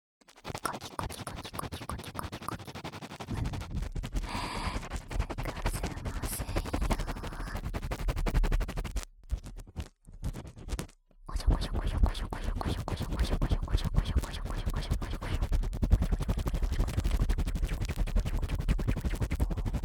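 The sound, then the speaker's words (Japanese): Quick ASMR scratching forms a dense, rapid rasping texture that runs almost throughout. A couple of brief pauses break it around the middle. “では、次は素早くカキカキしていきますよ。”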